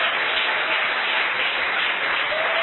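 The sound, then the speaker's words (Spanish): A church audience applauds in a sustained, dense wash of clapping that stays even and fairly loud throughout, with no break or build. “Dale un aplauso a Dios por eso.”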